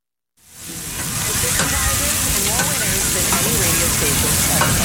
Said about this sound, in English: Somewhere in America tonight, someone's cooking burgers in the backyard.